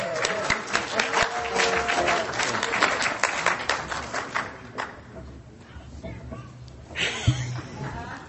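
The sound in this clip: An audience at a recovery meeting claps to welcome a panel speaker, dense and lively at first, then thinning and fading into talk toward the end.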